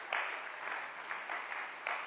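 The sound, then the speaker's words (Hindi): Faint, steady applause from an audience at a motivational talk, sounding thin and muffled, with a few slightly louder swells of clapping. “इनके लिए तालियां बजाएं, सच बोला।”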